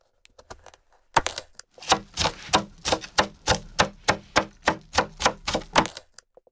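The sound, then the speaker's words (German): Knife slicing food into rounds on a cutting board for a salad: a steady, even run of many crisp chopping taps after a few faint ones, moderately quiet and with no voices. “Und in Scheiben schneiden.”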